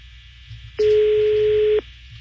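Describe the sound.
Ringback tone of an outgoing phone call: one steady, mid-pitched electronic tone lasting about a second, loud over a low background hum, with no voices.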